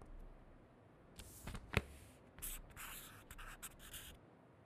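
Quiet scratching of drawing on paper, a run of short rubbing strokes of uneven length, faint and with no voices.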